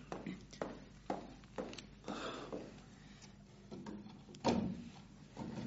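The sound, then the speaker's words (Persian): A door is closed behind someone leaving. Several soft, evenly spaced thuds are followed later by a firmer thump, all fairly faint. “در را هم پشت سرت ببند.”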